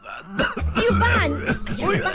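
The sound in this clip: A father coughs and clears his throat in a few harsh, raspy bursts, with voiced, speech-like sounds mixed in between them.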